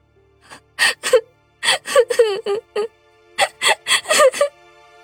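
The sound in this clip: A woman cries in short, gasping sobs and hiccups, with whimpering, wailing bursts between pauses. No words are spoken.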